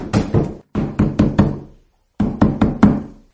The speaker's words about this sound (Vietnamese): Đúng lúc này, rầm rầm rầm, có người đập cửa dịch trạm kêu rầm rầm.